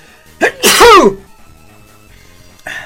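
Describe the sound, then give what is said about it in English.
A single loud, abrupt sneeze bursts out and cuts off quickly, followed by a brief faint noise at the very end. “that was a sneeze.”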